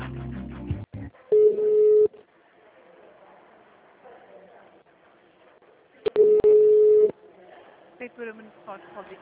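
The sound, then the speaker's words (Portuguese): A telephone ringback tone sounds while a call is being transferred. Two long, steady mid-pitched ring tones are separated by a quieter stretch of faint background sound. “Aguarde enquanto transferimos a sua chamada.”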